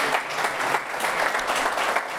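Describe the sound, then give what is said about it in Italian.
Applause from an audience at a public event, a brief, continuous burst of many hands clapping, steady and fairly loud with slight pulsing swells. “intanto prolunghiamo l'applauso”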